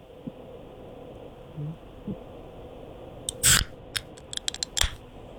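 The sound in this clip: A drink can, beer or soda for a suds-or-soda taste test, is cracked open with one short, sharp pop and hiss, followed by a few quick clicks over a quiet background.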